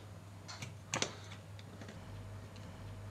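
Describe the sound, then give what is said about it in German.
A sharp click from the petrol-starting lever on a model, tripped by pulling a thread attached to a spring and red rubber band, preceded by a few faint ticks over a steady low hum. “Also das ist der Hebel, mit dem man das Benzin ans Laufen bringt und den man dann einhaken kann. Und wenn man an dem Faden oben zieht, dann kommt das Klack.”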